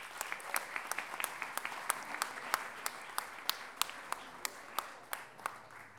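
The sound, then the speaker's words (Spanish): Audience applause at a book launch event: a steady patter of many hands clapping, holding an even loudness for the whole stretch. “Paula Miranda, un aplauso para ella.”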